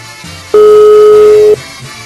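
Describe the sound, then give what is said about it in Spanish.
Telephone tone while a call is being placed: one steady, loud, mid-pitched beep lasting about one second over faint background hum. “Vamos a marcarle a este hombre a ver si nos contesta.”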